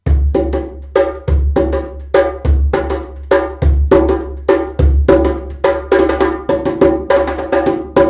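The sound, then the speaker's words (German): Djembe goatskin goblet drums, built to be loud, played by an ensemble of about three with bass drums: sharp, bright slaps in a steady, driving interlocking rhythm over deep booming low beats, loud and continuous with no voices. “Eine Djembe ist eine Kelchtrommel, die extra dafür gebaut ist, laut zu sein, weil sie auf dem Dorfplatz gespielt wird.”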